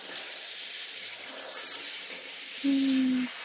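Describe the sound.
Water runs softly at a sink as hair is rinsed down to the hairline, a faint, steady hiss that carries on throughout, with a short low hum near the end.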